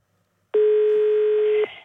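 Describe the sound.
A single electronic telephone ring sounds on a radio phone-in jukebox line: one steady, buzzy tone lasting about a second, loud and alone, with silence before it.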